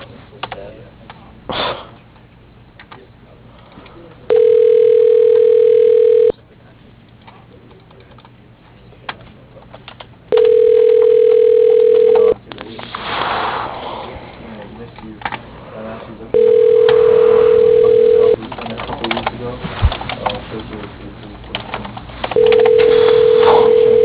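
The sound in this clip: Ringback tone of a phone call placed to a voicemail line: four long, steady beeps of about two seconds each at regular intervals, heard over a narrow, noisy telephone line with soft clicks and rustles between the rings.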